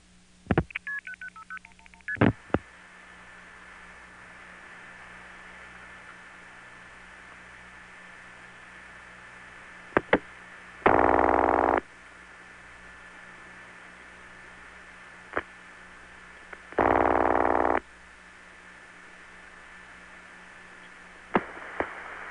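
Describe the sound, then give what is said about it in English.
A 1974 telephone call is placed from a number 5 crossbar line in Lynbrook, Long Island, to the 775 prefix in area code 919. Quick dialing tones open over steady line hiss, followed by two separate one-second tone bursts and scattered clicks. “The telephone recordings in the first part of this program were made in 1974 from my Lynbrook, Long Island, number 5 crossbar line. Here's a call to the 775 prefix in North Carolina's area code 919.”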